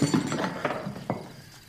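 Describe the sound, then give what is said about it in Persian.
Hurried footsteps as someone rushes into a room at night, then a sharp knock against a table. A few quick, clattering steps are followed by one distinct thud near the end, with no talk. “مبارک با عجله وارد اتاق میشه و به میز میخوره.”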